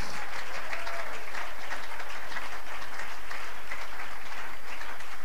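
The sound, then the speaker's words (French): A church audience applauds. Thick, uninterrupted clapping holds at a steady, fairly loud level from start to finish. “Est-ce qu'on peut acclamer le Seigneur? Je disais, est-ce qu'on peut acclamer le Seigneur?”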